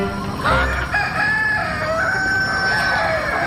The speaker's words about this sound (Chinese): 哇，你嚟打我，咁恶嘅鸡公。